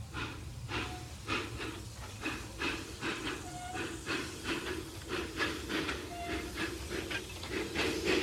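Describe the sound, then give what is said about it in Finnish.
A small steam locomotive puffs along in a steady rhythm of many soft chuffs over a continuous breathy hiss of steam, even and unbroken throughout. “ehkäpä juuri sinä kulkiessasi maailmalla näet jossain rautatieasemalla puhkumassa tai tasoristeyksen ohi viilettämässä tämän ystävämme pienen veturin.”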